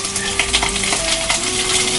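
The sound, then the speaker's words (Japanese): Bacon sizzling in a hot frying pan, a steady, dense crackling hiss with fine pops throughout and no speech. “ベーコンを並べて”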